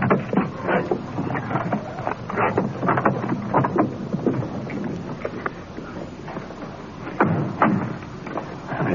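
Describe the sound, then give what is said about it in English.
Wind blowing outdoors at night, a steady, loud rushing roar with many dull thumps and buffeting gusts running through it, continuous throughout with no voices. “Wind blowing across here tonight.”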